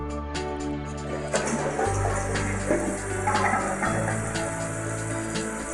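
Water rushing through a Kohler Tresham toilet as it flushes and rinses the bowl: a loud, steady gush that runs the whole way through, with a low hum beneath and swirling surges.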